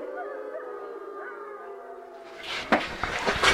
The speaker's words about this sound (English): That's the sound of 37 wild wolves greeting the dawn here at Mission Wolf.